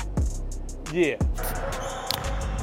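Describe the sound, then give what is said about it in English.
A basketball is dribbled on a court with a few sharp, hollow bounces, and a voice breaks in briefly between them. “That's a double dribble. It's a double dribble.”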